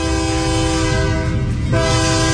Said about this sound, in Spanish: Deja que suene el tren